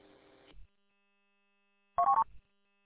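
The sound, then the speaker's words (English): A phone rings: two short electronic tone bursts separated by about a second and a half of silence, the second a warbling trill. “Yeah, my phone's ringing here. I got a dispatch call there.”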